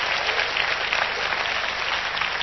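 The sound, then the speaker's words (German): An audience applauds during a church service with dense, even clapping that stays steady and unbroken at moderate loudness from start to finish. “Gebt doch einmal am Heiland einen Applaus.”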